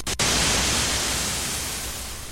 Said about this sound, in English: Most classic studios also have generators to create square waves and white noise.